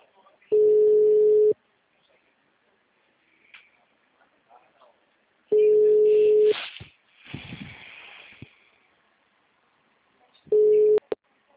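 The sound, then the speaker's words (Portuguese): A telephone busy signal: three steady, single-pitched tone bursts about a second long, spaced several seconds apart. The last burst is shorter, and faint rustling and a brief noisy scrape fall in the gaps. “Essa caixa postal já está cheia. Tenta ligar mais tarde. O número está ocupado.”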